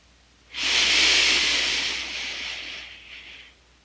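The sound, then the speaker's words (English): A deep inhale through the nose during a guided breathing exercise: one long, airy hiss lasting about three seconds that starts abruptly, holds steady, then slowly tapers off, with no voice over it. “Inhale your whole life.”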